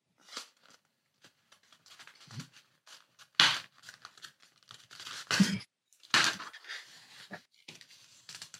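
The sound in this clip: A paper plate circle being folded: irregular crinkling and creasing bursts, soft between moves, with a few sharper crackles as the paper is pressed flat.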